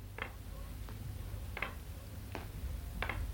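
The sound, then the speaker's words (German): Knocking like a ticking clock, linked to a deathwatch beetle: five faint, evenly spaced clicks over a low, steady hum. “Wer klopft da? Da klopft doch einer. Tick, tock, tick, tock.”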